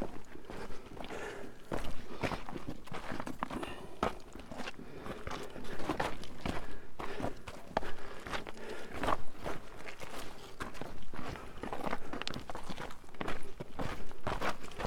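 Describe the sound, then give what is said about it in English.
Footsteps crunch along a trail in a steady walking rhythm, with many gritty steps at moderate loudness and no voices. “Have to be careful not to trip and fall here. Okay. It is hard to read poetry and walk on this trail.”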